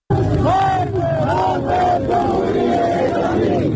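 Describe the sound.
A protest crowd chants in the street in Zahedan after Friday prayers: a dense mass of voices shouting slogans in unison, loud and continuous, with rising and falling rhythmic cries throughout.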